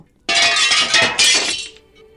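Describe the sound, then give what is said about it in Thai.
Glass crashes and shatters as a broken glass cup is thrown at a man's head on a dirty street. It comes as a sudden bright burst, then a second crash about a second later, with scattered fragments before it fades. “อีกคนตะโกนบอกแล้วก็คว้างถ้วยแก้วแตกๆ ไปที่ศีรษะของควาซิโมโด”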